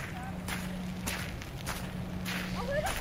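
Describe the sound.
Hikers' footsteps crunch along outdoors in an industrial area, a steady series of soft, evenly spaced steps over a constant low hum and light wind noise.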